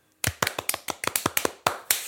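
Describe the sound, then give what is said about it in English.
Hand claps in a quick run of about a dozen sharp, crisp strikes, fairly evenly spaced and moderately loud, with no voices. “Hand clap.”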